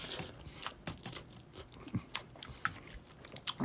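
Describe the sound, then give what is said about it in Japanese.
Chewing of soy sauce instant ramen noodles, many small moist crunchy clicks and soft mouth noises in an uneven rhythm, quiet and alone without talk. “咀嚼音がしますんでご注意ください。”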